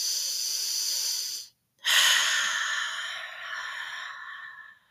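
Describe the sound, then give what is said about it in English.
Two deep breaths, each a long airy rush: the first lasts about a second and a half before a short silence, and the second is longer, starting strongly and slowly tapering away. “dig deep, reflect, take some deep breaths.”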